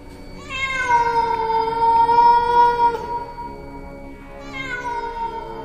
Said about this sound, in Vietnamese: Hồng Ngọc nhận ra ấy là tiếng kêu của một con mèo